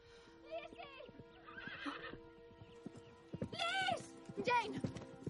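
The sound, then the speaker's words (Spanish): A horse approaches with whinnies and clip-clopping hooves as a rider arrives on horseback. Hoofbeats run through the scene, and a few sharp, high neighs stand out near the middle and the end. “se acerca a caballo”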